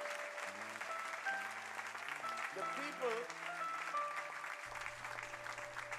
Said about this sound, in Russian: Так что давайте им еще похлопаем разок, да?